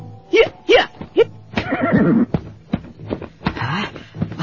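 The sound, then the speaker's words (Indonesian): A horse neighs in three short, quick whinnies, then gives a longer, wavering neigh, with more whinnying toward the end. “Suara kuda aku. Apa yang terjadi ini?”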